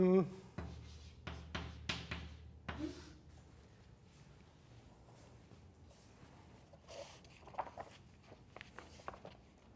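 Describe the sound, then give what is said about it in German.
Someone writing something down, with faint, irregular scratchy strokes that come in short bursts. A few louder knocks and rubs sit near the start, followed by quieter writing sounds. “ich kann ja das mal schreiben”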